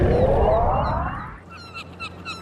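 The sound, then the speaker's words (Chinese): A person imitates a whale call with a long, loud, tonal moaning voice. Its pitch slowly rises for over a second, then it gives way to quieter background noise. “你干嘛这么叫啊？ 我在模仿鲸叫。”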